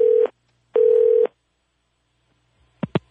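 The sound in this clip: Telephone tones while placing a call: a short steady mid-pitched tone burst, then a longer one of the same pitch, a pause of silence, and two brief sharp tonal blips near the end.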